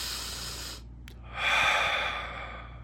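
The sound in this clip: A person taking a deep breath: two long, airy breath sounds are separated by a short pause, with the second one fuller and louder. There is no talking.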